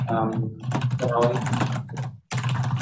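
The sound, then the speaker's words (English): Computer keyboard typing during an online planning commission public hearing: rapid, uneven key clicks run under people talking, with a short break near the end before the clicking resumes. “I think you're typing.”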